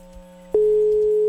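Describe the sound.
A telephone ringing tone while a call is being placed: after a brief quiet stretch with faint low thumps, a steady, pure electronic tone starts abruptly and holds unbroken to the end.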